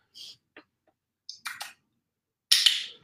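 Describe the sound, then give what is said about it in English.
Sharp clicks from a handheld dog training clicker, used while training a dog to look at its handler. A few short, bright bursts come at irregular spacing, then a louder, longer noisy burst near the end. “As soon as he looks, I can click. He looks away. It doesn't matter. I clicked. Click ends the behavior.”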